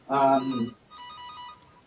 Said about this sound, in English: Somebody get your cell phone.